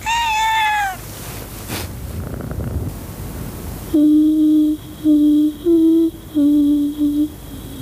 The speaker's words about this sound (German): Eschtike, und die Katze begann freundschaftlich zu schnurren